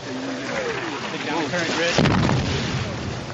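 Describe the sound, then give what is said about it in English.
Gunfire and explosions ring out in a firefight at a bridge on the road to Mosul in northern Iraq: a rough, continuous din broken by one sharp, loud blast midway, with voices faintly under it. “coalition forces engage in a firefight at a bridge on the road to Mosul. We hear the sounds of war from northern Iraq.”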